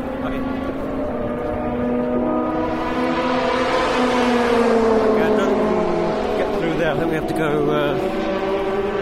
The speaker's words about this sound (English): If I'm quiet, you can hear the sound of our campsite as we walk.